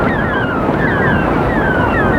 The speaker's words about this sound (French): Quel sale vent!